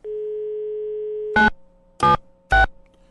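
A steady telephone dial tone hums alone for over a second before giving way to three short, loud bursts as a call is placed.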